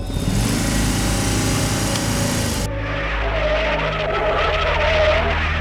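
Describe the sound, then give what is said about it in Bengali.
A motor car speeding along a road gives a loud, steady engine drone with a buzzing, high-revving whine that shifts in tone partway through and keeps going without a break. “ঠিক সেই সময় রাস্তা দিয়ে একটা motor ছুটছিল”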